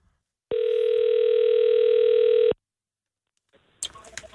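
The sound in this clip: An outgoing phone call gives one steady ringback tone, a single level buzz of about two seconds. A pause follows, then a voice picks up.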